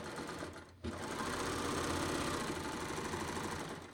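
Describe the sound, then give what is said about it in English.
A Baby Lock Enlighten serger overlocker runs, sewing out its lower looper thread. After a short start and a momentary dip, it settles into a loud, steady, fast mechanical whirr that holds to the end. “Here, I'll just sew out my lower looper. I'm just cutting it and sewing out.”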